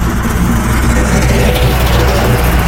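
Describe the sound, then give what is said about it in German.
A snowplow pushes snow aside in winter, giving a loud, unbroken engine drone thick with low rumble and broad, hissing scrape-like noise. “das ist der Schneepflug im Winter, wenn der Schnee schön auf die Seite geschoben wird.”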